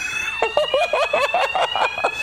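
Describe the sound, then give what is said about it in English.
A hotel fire alarm sounds a steady, piercing high tone that runs unbroken through the whole clip, with people talking over it. “The fire alarm's gone off in this hotel.”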